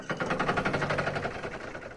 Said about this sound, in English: Can I get a grinding of gears sound effect here?